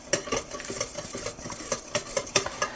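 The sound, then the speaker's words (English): A fork whisks eggs briskly in a bowl, beating them until liquid, producing rapid, rhythmic scraping clicks of metal against the dish that come in many quick strokes with slight unevenness in loudness. “then a fork will also work. What this does is it separates the eggs and makes them all nice and liquidy, which is what we want.”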